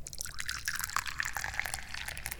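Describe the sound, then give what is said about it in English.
Tea being poured, a steady, bright trickle and splash of liquid running unbroken for about two seconds with no talk. “But first, we're going to pour some tea.”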